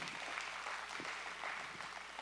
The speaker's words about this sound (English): Let's give him a great big round of applause.